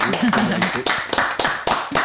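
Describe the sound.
Radio studio staff clapping after a live song performance, a steady run of about eight sharp, evenly spaced claps, with a voice briefly heard over the first claps.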